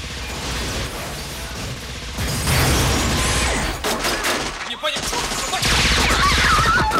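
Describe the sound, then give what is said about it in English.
Gunfire from a film action scene: a torrential hail of bullets is fired into police cars, heavy continuous bursts that stay loud and dense from start to finish. “He's distracted by two officers firing at him from under a van, so he blows the whole thing up, then sends a torrential hail of bullets into a couple of police cars, forcing Lewis to run for cover.”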